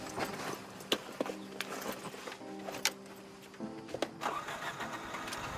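A car engine starts as the driver gets behind the wheel, heard faintly: scattered sharp clicks and knocks, then a steady tonal hum that holds through the middle before dying off, with more light clatter afterward.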